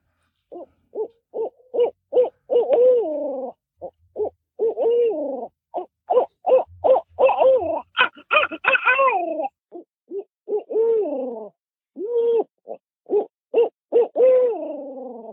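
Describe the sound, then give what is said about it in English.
A man imitates a barred owl's hooting call: a long series of short, resonant hoots in rhythmic phrases, with a brief stretch of more wavering, excited calling near the middle. The voice is loud and carries alone, with no other talk. “So, that's my best estimate of how to tell you how to hoot like an owl.”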